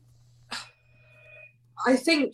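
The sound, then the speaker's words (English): A telephone rings in the background, a faint, steady electronic tone lasting about a second, set between bursts of speech over a low hum. “that's a phone ringing in the background. I don't need to answer it.”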